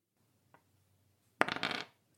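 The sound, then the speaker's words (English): A single die is rolled during a tabletop game: a faint tap, then a short, clattering rattle of quick bounces that dies away within about half a second. “So I'm rolling one prowess dice.”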